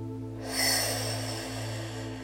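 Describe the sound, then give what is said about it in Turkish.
A single deep breath is drawn in during a guided relaxation exercise, soft and airy, rising quickly and then easing off over a steady low hum. “Şimdi büyük bir nefesle gözlerimizi kapatıyor ve derinleşiyoruz.”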